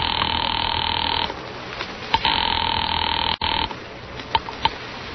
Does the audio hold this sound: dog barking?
no

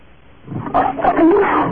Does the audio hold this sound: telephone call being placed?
no

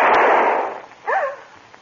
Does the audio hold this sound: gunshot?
yes

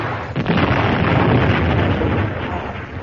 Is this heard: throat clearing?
no

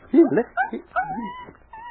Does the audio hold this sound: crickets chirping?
no

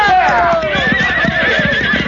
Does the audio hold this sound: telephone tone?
no

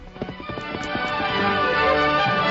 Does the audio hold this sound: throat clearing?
no

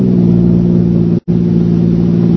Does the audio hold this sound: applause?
no

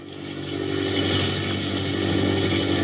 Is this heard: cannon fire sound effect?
no

